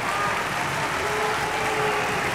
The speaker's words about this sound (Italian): Sentiamo come reagisce. Infatti, il pubblico a Livermore, ecco, eccolo qua che esce.